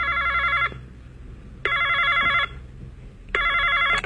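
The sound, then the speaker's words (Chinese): A telephone bell rings in a travel agency office: three loud, evenly spaced electronic ring bursts, each under a second long, separated by short gaps, with no voices. “Hello， 泛太平洋旅行社 ，Can I help you？”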